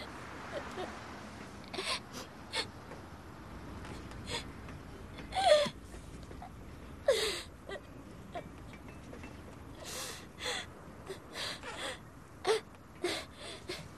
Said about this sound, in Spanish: Mientras llora desconsolada, se acaricia la barriga.